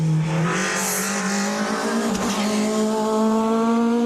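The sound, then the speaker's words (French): A Peugeot 306 Maxi rally car engine warms up on a wet track, producing a loud, steady drone whose pitch climbs gradually over a few seconds. “un pilote de rallye qui est un des rares possesseurs de 306 Maxi, est en train de faire chauffer justement cette 306 sur une piste un peu humide.”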